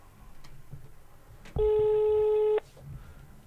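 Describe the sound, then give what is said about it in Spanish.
A telephone ringing tone on the line while a call is placed to a shop: one steady, buzzy tone lasting about a second that starts and stops abruptly over faint background noise. “Estamos llamando a Grido.”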